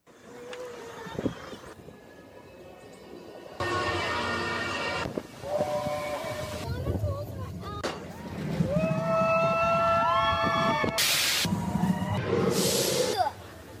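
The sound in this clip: Loud rushing rumble of the Expedition Everest roller coaster ride, broken into several abrupt segments, with shrill whistling and shrieking tones that rise and bend over the roaring track noise.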